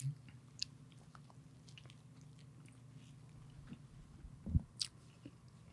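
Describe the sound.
Eating a chocolate eclair with a yellowish Boston cream filling: faint, soft, squishy bites and chewing over a low hum, with a couple of louder wet bites near the end.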